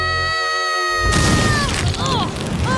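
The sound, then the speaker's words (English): A barbecue explodes with a sudden loud boom that cuts off a steady tonal hum. A dense, sustained crashing rumble follows and fills the rest of the moment. “Barbecue explode!”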